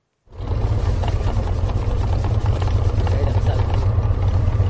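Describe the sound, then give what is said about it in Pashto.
Steady, loud mechanical drone from the production machines of a small sweets factory in Khuzkar, Wasrai, housed in an old fired-brick house. It starts abruptly and holds a dense rumbling roar with a constant hiss throughout. “دا د خوزکار په وسرای کې د شیرنی جوړولو د یوې کوچنۍ کارخانې د تولیداتو د ماشینونو غږ دی.”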